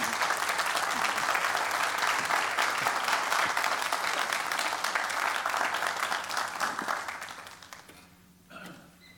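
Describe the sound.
Audience applause welcomes a speaker to a morning talk: dense, steady clapping from many hands that holds for about seven seconds, then thins out and fades, with a brief final flurry near the end.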